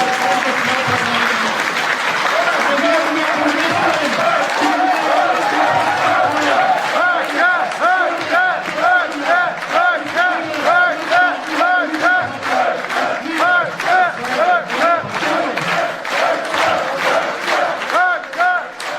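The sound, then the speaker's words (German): A crowd at a political party conference bursts into loud, sustained applause and cheering. Partway through, it settles into rhythmic, pulsing clapping with chanted shouts that keep a steady beat to the end. “ich glaube, allein am Applaus, und ich habe das auch selbst auf Parteitagen erleben dürfen, wird schon ziemlich deutlich, dass Herr Höcke”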